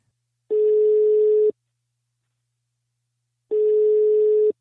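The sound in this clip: Telephone ringback tone on an outgoing call: two steady one-second beeps at a single mid pitch, separated by a long silence, with no voices.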